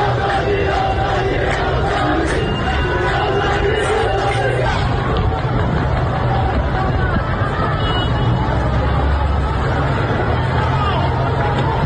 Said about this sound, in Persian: صدای معترضان رو بشنویم در این ویدیویی که به دست ما رسیده و البته در شبکه‌های اجتماعی هم پخش شده.